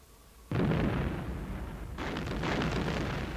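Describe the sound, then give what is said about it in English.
A giant mechanical walker explodes and collapses in a Star Wars story: a sudden heavy blast hits hard, then a dense roaring rumble follows, and a second surge of crackling rumble swells and holds to the end. “Suddenly, the tremendous bulk of the mechanical beast exploded at the seams, and the entire machine crumbled into a smoking, motionless heap.”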